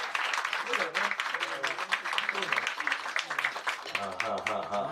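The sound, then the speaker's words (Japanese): Small round of applause from an audience at a live birthday concert: light, scattered clapping that runs beneath voices talking over it throughout. “そういう企画の立役者だってことでもう一回小さな拍手をもらって”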